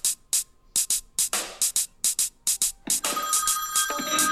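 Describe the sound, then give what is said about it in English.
Telephone ringtone for an incoming call: many short, bright electronic bursts repeat in a quick, steady rhythm, then a denser, sustained tonal ringing takes over for the last second or so. “We have another caller on the line.”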